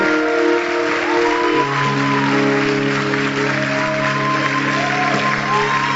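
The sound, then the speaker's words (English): Congregation clapping during a church service, a steady wash of hand claps under loud sustained musical tones that shift and slide across several seconds. “Even your clapping, it looks so anemic.”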